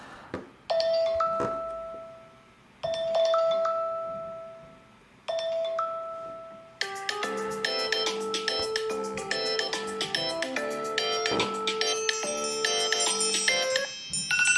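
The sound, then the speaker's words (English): Phone ringtones play. Three separate short chime phrases each ring out and fade, then a denser, continuous ringtone follows, packed with many bright melodic notes until the end. “Let's play with some ringtunes.”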